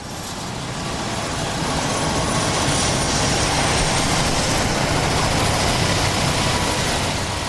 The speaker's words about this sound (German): Der Rettungshubschrauber Christoph 44 steuert auf den Landeplatz des Klinikums Göttingen zu. An Bord des Eurocopters befindet sich eine schwer verletzte Frau.